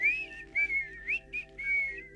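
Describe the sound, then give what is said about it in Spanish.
A person whistles a soft, relaxing tune in several short melodic phrases, clear and gentle over a faint steady low hum. “Yo te he puesto a ti un silbidito para que tú te relajes.”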